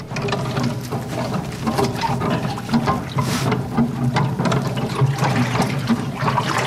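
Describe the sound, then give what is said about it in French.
Water churned by a large wooden paddle plunged into it for dynamizing water in farming: rhythmic sloshing and swirling mixed with repeated knocking, creaking clicks from the paddle, moderately loud with no voices. “Donc c'est une grande pale en bois en fait, plongée dans l'eau.”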